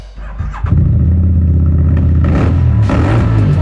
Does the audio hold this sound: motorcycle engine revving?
yes